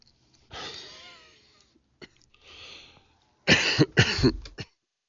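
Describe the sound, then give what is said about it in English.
Several harsh coughs. The first is a long rasp, then a short catch and a softer hacking one, ending in a loud cluster of sharp, rough bursts. “excuse me, that was a little bit of a cough there.”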